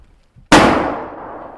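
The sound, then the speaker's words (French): A single sharp gunshot from a Swiss army assault rifle at a shooting range cracks loudly after a brief faint rustle. It leaves a ringing tail that decays over about a second. “Mais le coup, il est parti tout seul, je vais en retirer.”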